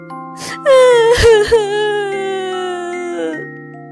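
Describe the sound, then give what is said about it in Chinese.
Young characters in a children's story cry at a painful farewell in one long, loud, wavering wail that opens with a few sharp sobbing catches and then trails off slowly. “没想到离别会是这么痛苦。卡梅利多和贝里奥哭了起来。”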